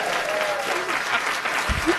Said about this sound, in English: You can, let's give a nice hand.